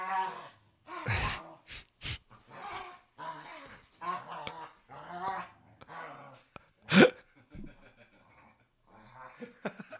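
A female dog whining while being petted, strained, drawn-out whimpers and groans in short uneven bursts, with one louder sharp cry standing out among quieter whines.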